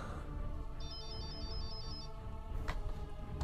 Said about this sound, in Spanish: Un segundito, que tenemos una llamada.